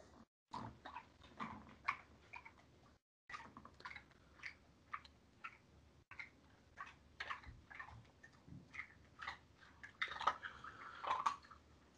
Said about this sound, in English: Hopefully you can hear the dog loudly eating like a rude piece of shit in the background.